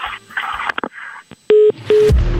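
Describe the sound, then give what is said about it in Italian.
Telephone tones sound as a prank call is placed: two short, steady, pitched beeps in close succession, the second slightly shorter, following a few seconds of quieter mixed sound. “Adesso bisogna completare lo scherzo telefonico chiamando la vecchia veneta Lancia Caldaie.”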